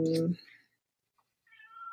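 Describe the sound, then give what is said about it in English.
A cat meows: a short, loud vocal burst at the start, then after a pause a long, drawn-out, fairly high meow that holds steady to the end. “I'm sorry, that's my cat editing.”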